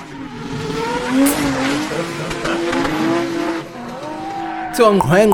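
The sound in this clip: A car drives off with its tires squealing, the engine revving in rising, wavering tones, followed by a sharp burst of squeal and roar near the end. The sound is loud and continuous throughout.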